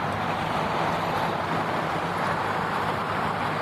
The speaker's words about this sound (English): now is definitely not the right time to cross, as you can hear. There we go. Wait for a car.